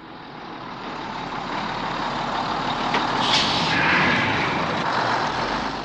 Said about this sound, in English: And what's this? It's a bus.